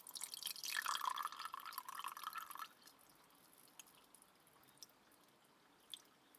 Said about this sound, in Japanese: ここにも湯を注いで、